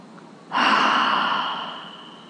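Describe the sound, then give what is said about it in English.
A single long, deep breath taken during a guided breathing exercise: a soft, airy rush that starts abruptly, holds steady, then slowly fades over about a second and a half, with no talk. “Okay, deep breath. And another one, deep breath.”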